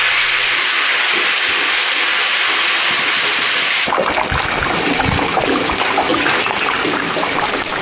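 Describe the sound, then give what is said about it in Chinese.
Home-slaughtered pork fat stir-fries in rapeseed oil with a loud, continuous sizzling hiss that turns harsher and more crackling halfway through. “放一点自家杀猪留下的肥肉，混着菜籽油一起炒到金黄”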